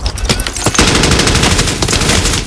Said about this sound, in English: Putting on his helmet, he charges into the open, firing as he runs.